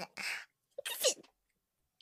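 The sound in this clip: A sudden human sneeze: a short breathy burst, then a louder, sharp explosive sneeze, followed by silence.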